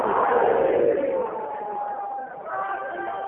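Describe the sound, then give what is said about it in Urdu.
A crowd shouts its answer to the Naara-e-Haideri chant: a loud burst of massed voices, then a sustained drawn-out tone of voices that eases and continues to the end. “آخری آدمی کے اندر کے رگوں میں عباس کی مدد ہے, نعرہ حیدری”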